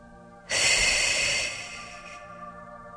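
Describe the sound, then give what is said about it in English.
A single slow, deep breath during a calming relaxation exercise, a soft breathy hiss that swells quickly, holds steady for over a second, then fades gently. “And using your breathing to breathe in the calm and breathe out any possible tension.”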